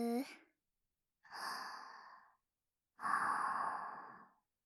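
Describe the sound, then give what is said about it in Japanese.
A person takes a deep breath in and out. A brief voiced sound at the start is followed by a long, airy inhale, then a pause and a longer, louder breathy exhale. “はい、深呼吸。”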